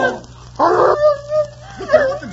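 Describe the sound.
A vicious dog attacking, with short bursts of snarling, yelping and whimpering mixed in among agitated human voices.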